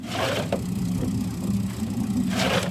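A fishing boat's engine drones steadily on the Danube, the border river between Romania and Ukraine, giving an even, low, rumbling hum with a slight rattle throughout.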